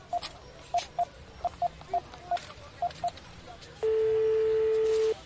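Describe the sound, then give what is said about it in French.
A phone number being keyed in: a quick, uneven series of about nine short electronic beeps, then a long steady tone on the line. “Attends, j'ai une idée. Je vais téléphoner à Célie.”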